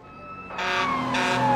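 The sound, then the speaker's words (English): Tyre screech from a car skidding and spinning to a stop at a road junction after dropping down on one side: a loud, sustained squeal with gliding tones over engine noise, growing louder partway through and staying strong to the end. “the car drops down on one side. It spins onto a junction and stops in the middle of the road.”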